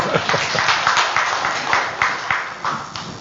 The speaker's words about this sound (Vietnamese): Rồi hay quá, vỗ tay quý vị.